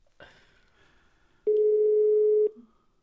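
A telephone ringback tone plays while a caller waits for the call to be answered: one loud, steady, mid-pitched beep lasting about a second, after a faint brief noise.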